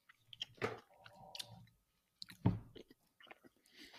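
Chewing on lemon bars with a bland crust, a few crunchy bites and mouth sounds in two separated bursts, moderately loud with no talk.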